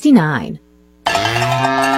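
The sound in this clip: Cattle mooing: two calls, a short moo that falls in pitch, then a brief silence before a longer, loud, steady moo rich in harmonics.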